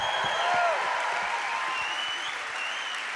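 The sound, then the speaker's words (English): A church audience applauds as a preacher is welcomed, with steady, dense clapping that holds at an even, fairly loud level for about three seconds. “Put your hands together. Welcome Jim Reeve as he preaches for us.”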